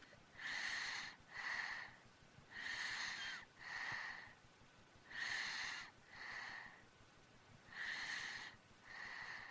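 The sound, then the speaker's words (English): Soft breathing of a small child asleep at night, slow and regular: four breath cycles, each a longer airy draw followed by a shorter release, faint and steady in near silence. “That's the sound of a little kid sleeping.”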